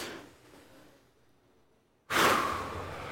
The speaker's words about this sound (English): we're going to take a nice, full, deep breath together because I think we need it.